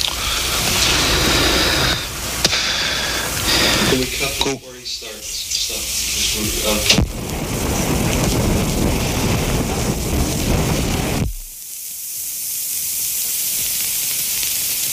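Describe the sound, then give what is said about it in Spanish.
Strong wind roars and buffets the microphone in a loud, rushing wash of noise with uneven gusts, before dropping to a steadier, softer hiss near the end. “a ver si se le escucha el viento, como ven, tremendo”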